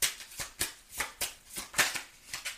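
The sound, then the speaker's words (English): Cards being shuffled for a card reading: a steady, rhythmic run of many crisp, papery riffles and slaps in quick succession, with no talking. “May I have some cards, please? Thank you. May I have some more cards,”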